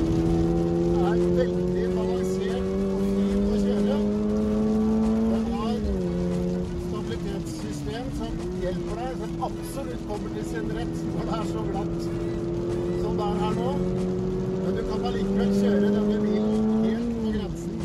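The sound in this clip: A car with a six-speed manual gearbox and 235 horsepower drives with a steady, loud engine drone. Its pitch dips briefly twice, then settles back into an even hum that runs through the whole clip.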